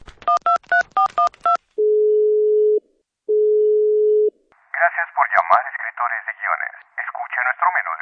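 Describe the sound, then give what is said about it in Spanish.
Telephone dialing tones: a quick series of dual-pitched keypad beeps, then two long, steady ringing tones separated by a pause, after which a recorded voice begins speaking. “Voy a marcar una agencia de escritores.”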